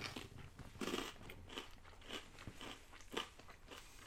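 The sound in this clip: Crunchy bites of food taken close to the microphone: a series of crisp, crackling crunches and chewing, fairly faint overall, with no talking.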